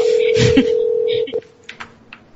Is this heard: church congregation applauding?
no